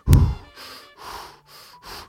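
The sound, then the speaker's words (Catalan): Deep breaths taken as a breathing exercise: a few long, soft, breathy exhales follow one another in a steady rhythm after a brief low thump at the start. “Anem a respirar. Vaig a respirar, faig uns exercicis de respiració.”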